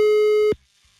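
One telephone ringing tone from an outgoing call, a single loud, steady beep lasting about half a second before it cuts off to near silence.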